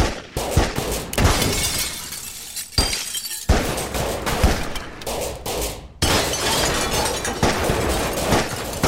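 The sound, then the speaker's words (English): Heavy police gunfire from pistols and shotguns aimed at a Ford car: dense, rapid, loud bursts of shots with crashing, shattering glass, barely pausing throughout. “As Bonnie and Clyde are about to assist the couple, six policemen emerge from their hiding spots and open fire on the famous Ford, and of course, its occupants.”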